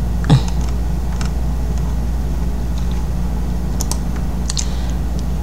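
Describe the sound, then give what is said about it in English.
A computer mouse clicks at a home office desk, giving a few faint, sharp clicks spread out over a steady low hum. “Okay, so this article, okay, let me click on it.”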